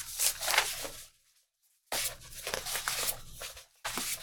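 Printed paper pages flipped by hand, heard as faint, crisp rustling and crinkling in a few bursts, with one brief quiet pause partway through.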